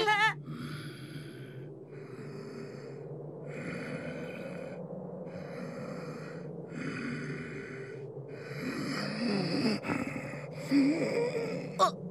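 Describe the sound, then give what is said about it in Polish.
A man snoring in his sleep: a long series of raspy, snorting breaths in a steady, regular rhythm, growing somewhat louder and rougher toward the end. “Czy on przypadkiem nie chrapie? Zasnął. Położył się spać.”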